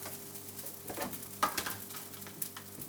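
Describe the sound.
Butter rice frying in a pan, a faint, soft sizzle with a few light scraping stirs over a steady low hum.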